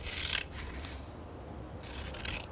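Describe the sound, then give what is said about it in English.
Scissors cut an article out of a newspaper page: faint, papery rasping snips in a few short bursts, with a quieter pause in the middle. “Take a pair of scissors. Choose an article. Cut out the article.”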